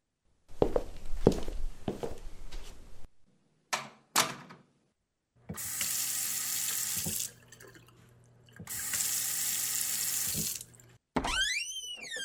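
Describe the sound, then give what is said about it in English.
Tap water gushes into a bathroom sink while blue paint is washed off, in two sustained bursts of flow with a short pause between. Several knocks and thumps come first, and a brief squeaky sound follows at the end. “Why were you using blue paint anyway? Well, he was looking a bit cold. I'll just go to the bathroom to wash it off.”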